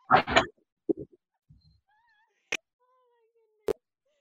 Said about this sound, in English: Yeah, there's a cat back here, sorry. No, that's a cat.